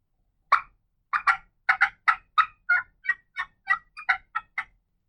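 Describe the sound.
A hunter's turkey call mimics an aggressive hen turkey cutting back to attract hens: a rapid, uneven run of many sharp, high, clucking notes, loud and alone with no talk.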